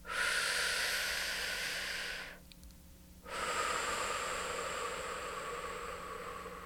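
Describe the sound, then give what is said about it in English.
A deep breath closes a round of acupressure tapping: a long, airy inhale of about two seconds, a brief quiet pause, then a slow, steady exhale that fades gradually, with no talking. “And I end each round with a deep breath.”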